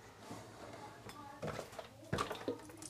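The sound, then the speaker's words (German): A large, clean pot set down in a home kitchen, giving a few sharp metallic clanks and knocks of moderate loudness, the last one the strongest. “Großen Topf. Jetzt stellen wir einen großen Topf auf.”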